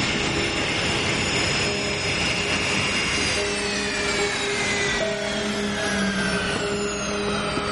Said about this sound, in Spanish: En un pequeño aeropuerto, un jet aterriza.